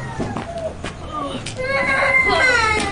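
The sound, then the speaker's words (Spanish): A small child cries in a drawn-out, high wailing sob that grows louder in the second half, while an adult voice talks over it. “Ven, mi niño, no llores. Ven, ven, te cargo.”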